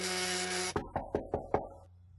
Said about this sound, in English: There's a knock at the door.